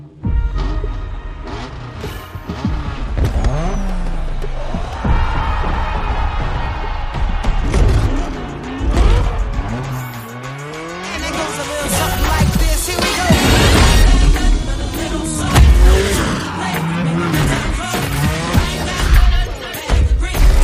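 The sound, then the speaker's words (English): Loud, dense car action from the trailer of a Rocket League-like video game plays continuously, with engine revs, impacts and bangs layered together. “It's pretty much Rocket League and it's free to play, but here's a trailer for it that has some pretty cool action.”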